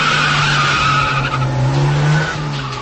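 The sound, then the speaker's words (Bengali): An expensive Premier car pulls up behind a clinic late at night: a loud, steady engine drone with a tire-like squealing tone that rises slightly, then eases off as the car stops. No talk. “এদিকে রাত একটু গভীর হতেই ক্লিনিকের পেছনে এসে থামে একটি দামি প্রিমিয়ার গাড়ি।”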